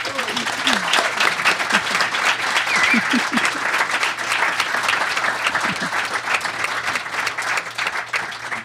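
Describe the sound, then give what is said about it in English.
Sustained audience applause for a panel at the close of a forum discussion, a steady, even roar of many hands that lasts throughout, with a few faint voices rising over it. “let's the audience here give a big hand to the wonderful discussion that we've had tonight from our panel.”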